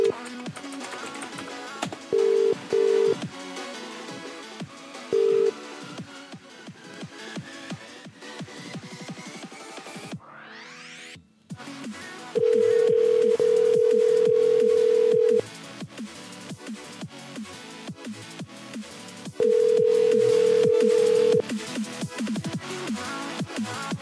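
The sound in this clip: Telephone dialing: a few short beeping tones sound over a constant noisy background, and later two long steady tones follow, each lasting a couple of seconds.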